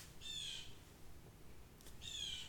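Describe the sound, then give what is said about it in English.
Birds squawk outside in two short, harsh, crow-like calls separated by a pause, faint against quiet background noise. “I got fucking birds outside.”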